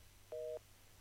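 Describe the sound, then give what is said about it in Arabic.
Telephone busy tone after a caller's line drops during a call-in: one steady two-tone burst of about a quarter second, fairly faint, sounding alone over a low hum. “يبدو انه الاتصال راح معنا.”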